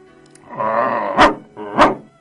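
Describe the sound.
A child growls angrily, imitating a dog with the voice: two fairly loud, sustained throaty growls, each ending in a sharp, abrupt burst, with no other talk.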